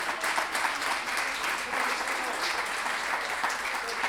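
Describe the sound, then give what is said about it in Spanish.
Audience applause at an improvised-verse tournament: steady, dense clapping that fills all four seconds at an even loudness, with no distinct voices standing out. “así que agradecer un aplauso para Felipe”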